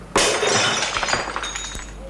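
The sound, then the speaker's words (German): Window glass is smashed in: one sharp, loud crash followed by a trail of tinkling shards, with a small bright clink near the end. “Los, Sergeant. Schlagen Sie das Fenster ein.”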